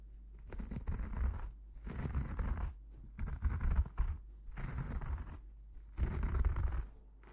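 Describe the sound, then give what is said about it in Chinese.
A razor scrapes across a lathered face during a shave. Several rasping strokes come in separate bursts with short pauses between them, over a faint steady low hum. “给您的脸上已经涂满了泡沫了，现在就开始给您刮胡子了。”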